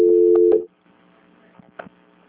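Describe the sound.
Telephone line tones during a call transfer: a steady tone holds for about half a second, then stops, followed by a quiet line with a few faint short blips.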